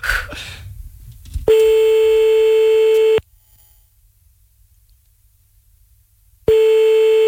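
Ringing tone of an outgoing telephone call: after a brief noisy start, a steady mid-pitched tone sounds for under two seconds, falls silent for about three seconds, then begins again.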